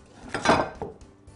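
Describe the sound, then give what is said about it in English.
A baking pan clatters as a loaf of blueberry bread is flipped out of it after the foil is removed, giving a few short metallic knocks and scrapes in quick succession. “And now for our blueberry bread, we're going to remove that by taking the foil out. And then we can just give it a quick flip.”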